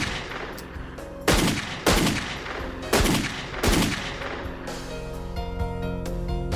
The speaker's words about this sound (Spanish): Dios, ¿por qué les disparaste?